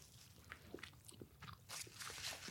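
Faint crunching and crackling as a knife cuts into half-turkey, half-vegetable food, a few short, dry, irregular bursts of crunch over low background noise.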